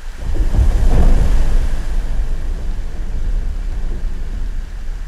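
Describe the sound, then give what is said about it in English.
Underwater sound of a melting glacier: a continuous dense crackling and fizzing hiss over a deep rumble, loudest during the first two seconds and then holding steady. “underwater sounds deliver very useful information about the melting glacier.”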